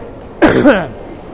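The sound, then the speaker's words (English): A single short, throaty cough with a voiced two-part burst, fairly loud over a low, steady background hum. “I have to cough.”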